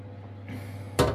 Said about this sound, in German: Deckel wieder drauf.